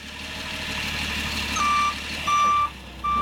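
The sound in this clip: A camper van backs up, sounding three long, steady high-pitched reversing beeps at an even pace; the last beep is cut off, and a low idling engine hums beneath them.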